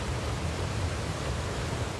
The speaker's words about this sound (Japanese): そう、滝です。100メートルはあるでしょうか。白い水が岩肌を落ちてくる。